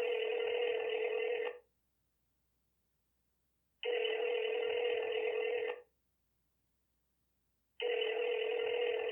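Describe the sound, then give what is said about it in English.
Ringing tone of an outgoing telephone call, heard as three loud, steady bursts of about two seconds each with equal silent gaps between them. The last burst is cut off, and no voices are present. “Anyway, we'll dial it up. Let's see if he answers.”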